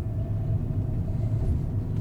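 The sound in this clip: Steady low rumble of a vehicle driving across a container terminal toward its rail terminal, a constant engine drone with no talk.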